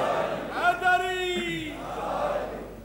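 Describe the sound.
A crowd at a religious gathering shouts its chanted response to the Nara-e-Haidari slogan. Many voices rise together in a loud, sustained cry, then give way to a quieter murmur.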